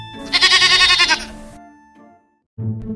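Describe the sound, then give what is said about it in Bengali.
A gatekeeper's goat bleats while being fed sweets, giving one loud, wavering, nasal cry, followed after a pause by the start of a second bleat. “তারপর দারোয়ানের ছাগলটাকে ডেকে সকলের সামনে তাকে মিহিদানা খাওয়ালো”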